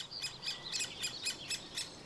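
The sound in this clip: Great spotted woodpecker calling in an orchard meadow of old, tall trees: a rapid series of sharp, high, short notes repeated at a quick, even rhythm, moderately faint over a quiet background.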